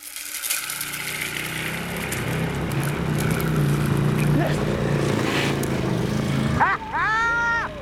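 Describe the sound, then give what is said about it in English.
A 1,000 cc V-twin motorbike engine of nearly 200 horsepower rumbles in a steady, building low drone, then breaks off briefly before short, higher whining revs near the end. “V-twin motorbike engine, 1,000 cc's, nearly 200 horses”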